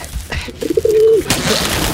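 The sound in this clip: Pigeon cooing: a single short, low, warbling coo with a brief stuttered lead-in, set against a background of noise that grows louder right after it.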